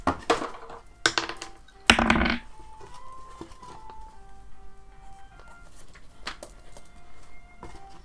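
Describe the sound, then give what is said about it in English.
Six-sided dice clatter as they are rolled in a tabletop game, with a few sharp rattling bursts over the first two seconds before the sound settles into a quieter background. “I'm going to ask you all to roll another d6, please.”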